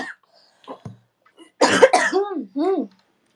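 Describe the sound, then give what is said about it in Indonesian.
Coughing from a person with a persistent, months-long cough: a couple of harsh, breathy bursts close together, then rough voiced throaty sounds, with a few faint smaller sounds before them. “Kapan selesai ini batuk anjrit.”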